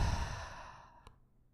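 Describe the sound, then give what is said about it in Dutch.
A single deep breath let out through the mouth as one long, soft, breathy sigh that gradually fades away. “Ik wil je uitnodigen om allereerst een keer diep in te ademen via je neus. En uit te ademen via je mond.”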